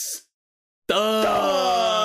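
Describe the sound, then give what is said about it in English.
A wheeze: a short breathy hiss, then a brief silence, followed by a loud, sustained, strained tonal groan at a fairly steady pitch, heard alone without talk. “did you hear that wheeze?”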